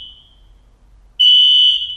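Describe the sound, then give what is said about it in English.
A fire alarm sounds with a high, piercing electronic tone. A short beep comes first, then after a pause a loud continuous tone holds for most of the final second. “That is really the fire alarm?”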